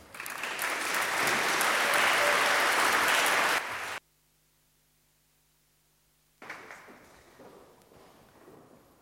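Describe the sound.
Loud, sustained audience applause welcomes a speaker, then cuts off abruptly into silence before softer, uneven noise resumes.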